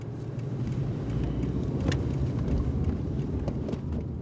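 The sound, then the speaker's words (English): Steady low road rumble of a car driving around the town of Firestone, with engine hum and buffeting wind noise continuous throughout at an even level. “I'm driving around Firestone”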